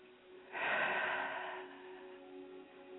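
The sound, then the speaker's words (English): A single deep breath taken during a breathing exercise: a broad, airy rush lasting about a second that swells quickly, then eases into a quieter trailing exhale over a faint steady hum. “So let's take 5 deep breaths. 5 because it's a number of change.”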